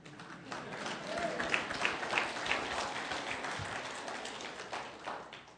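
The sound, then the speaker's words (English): Sustained audience applause after a speech: dense, steady clapping from a crowd that holds an even, fairly loud level throughout, with a few sharper claps standing out. “I hope you're applauding for my wife.”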